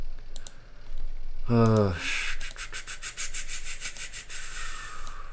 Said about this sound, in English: Oh, yeah, mechanical keyboards. You guys don't have mechanical keyboards?